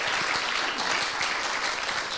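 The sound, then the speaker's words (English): An audience bursts into loud applause at a church worship gathering, clapping for the teams behind the service. The dense, sustained clapping stays steady throughout the short stretch, with no talking over it. “Could we give a round of applause to our teams who make these things happen?”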